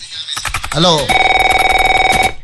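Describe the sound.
A telephone rings with a steady electronic trill of rapid, even pulses. It follows a moment of voices and lasts about a second before cutting off.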